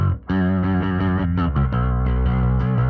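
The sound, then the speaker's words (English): Electric guitar played through an effects unit set to vibrato: sustained, slightly distorted chords whose pitch wobbles steadily, ringing continuously and loud after a brief opening note. “It's kind of the more of the vibrato setting.”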